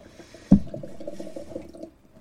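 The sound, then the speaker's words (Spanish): Ribera wine poured into glasses: a sharp onset followed by a soft, steady trickle of liquid that gradually fades, with no talk. “No sé si el oyente lo percibe, pero está sirviendo las copas”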